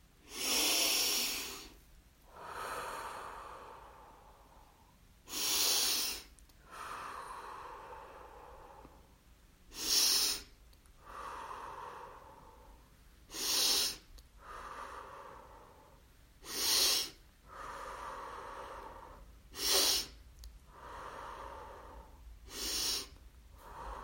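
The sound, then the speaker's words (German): Slow, deep breathing through the nose in a guided meditation: seven sharp, hissing inhales evenly spaced, each followed by a softer, longer airy exhale, with no talk over it. “Und nimm jetzt 7 Atemzüge. Für jedes Chakra einen Atemzug, tief durch die Nase einatmen und langsam durch die Nase ausatmen.”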